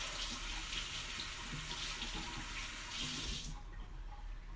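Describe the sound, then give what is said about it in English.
Tap water runs while a spoon is washed before oatmeal is made. A steady splashing hiss continues, then cuts off near the end, leaving near quiet. “Let me just wash my spoon because I'm going to make oatmeal”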